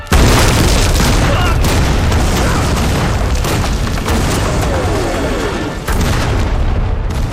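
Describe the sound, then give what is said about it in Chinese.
Artillery shells explode in a battle: a loud, continuous, rumbling barrage of booms, with a sharp fresh blast near the end. “等等， 等什么？这是咱们的炮，停止炮击。”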